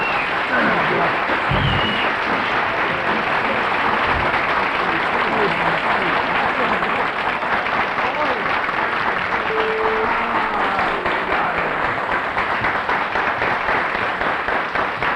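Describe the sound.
An audience applauds to welcome a drummer, with loud, steady clapping that runs through the whole clip and voices underneath.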